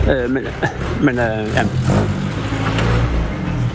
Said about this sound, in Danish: det er lige en veteranbil, der kører forbi her nu.